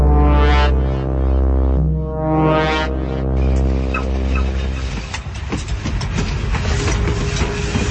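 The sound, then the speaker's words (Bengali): A train arrives and stops at a low platform spread with brick dust: a loud, wavering, harmonic drone holds for about five seconds, then gives way to a steady, dense clattering rumble. “Train এসে থামলো পাহাড়পুর, সুরকি বিছানো নিচু platform, কামরা সিঁড়ি বেয়ে নেমে এলেন সমরেশ চৌধুরী।”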